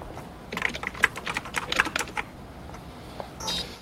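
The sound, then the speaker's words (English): Rapid typing on a computer keyboard as a librarian runs a search, with many irregular key clicks in dense bursts for about two seconds, then a few scattered taps and a brief final rattle. “The middle-aged librarian types on the keyboard and does a search on the computer.”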